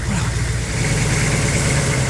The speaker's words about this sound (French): Je pense que si on se prépare à deux, on devrait être capable d'ouvrir ça, de démarrer ça. Le truck de la shop?